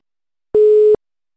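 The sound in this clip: Telephone line tone while placing a call, a single steady mid-pitched beep lasting under half a second, clear and loud against silence.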